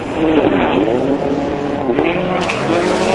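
Rally cars roar at high speed down a long straight on a purpose-built super special stage arena. The engine noise is a loud, sustained, full-throttle roar that stays heavy throughout the short clip.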